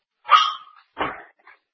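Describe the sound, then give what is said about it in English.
A dog barks twice, loud and sharp in quick succession, followed by a short faint yelp. No voices are present. “The one that I can't control is my dog. He's filled with the spirit of Satan tonight.”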